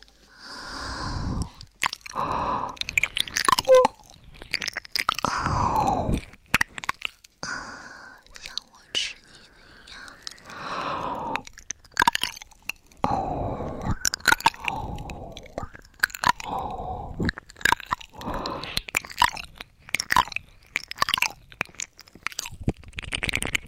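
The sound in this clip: Wet chewing, biting and crunching mouth sounds come in many irregular bursts as food is eaten, mixed with soft whispering throughout.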